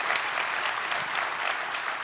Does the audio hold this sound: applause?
yes